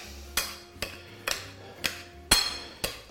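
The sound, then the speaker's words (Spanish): A knife cuts food into smaller pieces, producing six sharp taps at an even pace, each a crisp click with a short ring. “Bueno, voy a cortar así un poquito con el cuchillo.”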